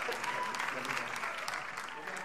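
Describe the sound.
An audience claps to welcome a pastor, a steady, even patter of many hands that fills the whole moment at a fairly soft level.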